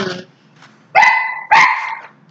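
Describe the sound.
Dog barking in a few loud, harsh barks, the last two long and drawn out, with a faint yip between them and no voices.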